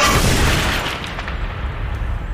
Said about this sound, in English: Bop, I said. That was my bomb sound effect.